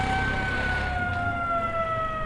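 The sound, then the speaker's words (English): A siren is blown outside an elephant orphanage to stop traffic while elephants cross to the river. It is a steady, sustained tone that drifts slowly lower in pitch, with a low rumble under the first second. “Sirens are blown to stop traffic outside the orphanage as the elephants form a train to cross over to the river”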